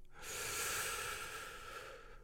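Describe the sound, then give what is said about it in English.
A single deep breath drawn in during a guided breathing exercise, a loud, steady airy rush lasting about two seconds with no voices. “We're going to breathe in the air three times, three great big fat breaths. So a first one, big, ready? Big breath in”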